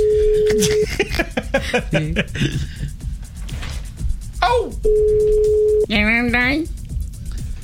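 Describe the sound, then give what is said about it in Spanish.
Ringback tone sounds while a call is being dialed: two long, steady, mid-pitched tones separated by a stretch of lively talk, with voices continuing throughout. “¡Marcando! ¿A quién le estamos marcando?”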